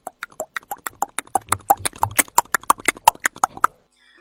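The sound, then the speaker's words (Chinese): Horse hooves gallop in a fast, urgent rhythm, many sharp clattering beats in quick succession that stop abruptly just before the end. “就在这个功夫，传来一阵急促的马蹄声，这马蹄声是由远而近。”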